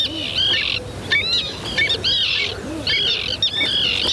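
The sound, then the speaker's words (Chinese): Whiskered tern chicks and parents calling in the Danube Delta during the July breeding season: repeated harsh, high-pitched rasping calls in overlapping bursts over a steady background hiss. “七月是多瑙河三角洲上灰翅浮鸥的繁殖期。灰翅浮鸥妈妈不知疲倦地为雏鸟搜寻着食物，但雏鸟们似乎永远都吃不饱。”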